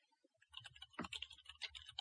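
Typing on a computer keyboard: a quick, irregular run of faint key clicks and taps over about two seconds.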